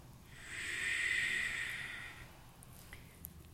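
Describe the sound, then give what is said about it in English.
Ujjayi yoga breathing through the nose: a single long, airy hiss that swells, peaks and then fades away. “Ujjayi. And keep the breath in and out through your nose as a way of staying here.”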